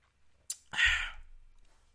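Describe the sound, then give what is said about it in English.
A drink of orange juice: a sharp little click, then a short breathy, wet gulp that rises quickly and fades, faint and heard alone. “That's some delicious orange juice. I completely forgot what I was drinking.”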